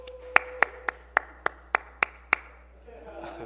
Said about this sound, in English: Everybody give him a nice hand for congratulations.